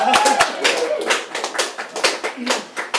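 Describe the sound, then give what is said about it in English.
Audience applause at the start of a lecture debut, a dense, steady patter of many hands clapping through the whole stretch. “How about a hand for everybody?”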